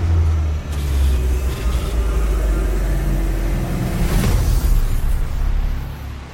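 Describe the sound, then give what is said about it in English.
A mission vehicle transforming and launching: a deep, heavy, continuous rumble with a whooshing surge swelling about two-thirds of the way through, then the drone carrying on loudly. “Handing over mission vehicle to Team Yellow. Please prepare for vehicle transformation and launch.”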